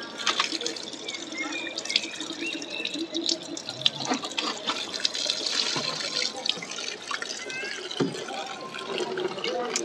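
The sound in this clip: Lourdes water sprinkled in a blessing during a rosary at Lourdes: continuous splashing, dripping and trickling with scattered small pattering drops throughout.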